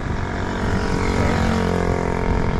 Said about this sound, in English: A lot of motorbikes around here.